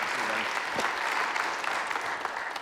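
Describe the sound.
Applause from a church audience welcoming a guest speaker: dense, steady clapping fills the whole clip at an even loudness.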